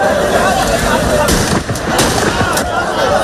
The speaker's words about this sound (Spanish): algunos de ellos han provocado algunas situaciones en las que la Policía Nacional ha tenido que disparar al aire así.